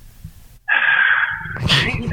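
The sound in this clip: A person takes a sharp, drawn-out inhale, a hissing breath with a thin whistle-like tone that turns breathier and rougher toward the end.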